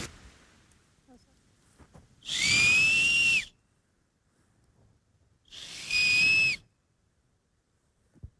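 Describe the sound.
Flute-like whistles blown on a nut shell during a forest outing, reedy like a grass blade. Two breathy, high, steady tones, each about a second long with a slight drop at the end, separated by a few seconds of quiet.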